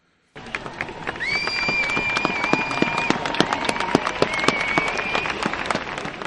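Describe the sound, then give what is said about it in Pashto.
Gunshots crack again and again after an armed attack on a magazine office in France: many sharp bursts in irregular succession, with a high, drawn-out voice carrying over them. “دا هغه ناری سورې وی او د ډزو اوازونه پکې هم اوریدې شي.”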